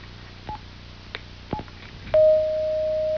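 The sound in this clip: Telephone line tones as a caller is connected: a few short, separate dial beeps, then a steady sustained tone that holds for about a second before cutting off.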